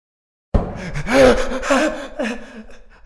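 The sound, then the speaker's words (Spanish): Rapid, heavy breathing from a frightened man who thinks he may have been shot. After a moment of silence, loud gasping breaths come in quick succession and slowly ease off. “Oigo mi respiración acelerada.”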